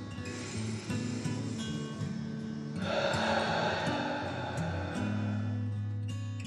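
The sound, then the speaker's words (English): A long, deep breath out during a relaxation exercise, a steady breathy hiss lasting about two seconds over a soft, sustained musical drone. “Let your shoulders fall back down and take a deep breath in and”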